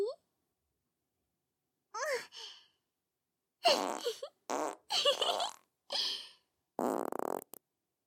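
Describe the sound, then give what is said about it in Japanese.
Several raspy farts in short bursts of varying length, interspersed with breathy vocal sounds and sighs. “おならが染みついたパンツにしてあげたよ。ほら見て、何回も強烈なのを浴びてるから、”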